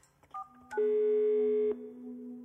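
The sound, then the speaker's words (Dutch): Telephone keypad tones dial a call: a few short beeps in quick succession, then a loud sustained tone that gives way to a quieter, lower steady tone. “Ik besluit haar te bellen.”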